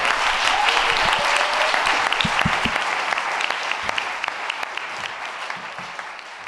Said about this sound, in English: Let's give Luke another round of applause.